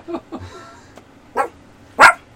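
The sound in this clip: A dog barks four times: two quick, lighter barks, a pause, then two stronger barks, the last one loudest.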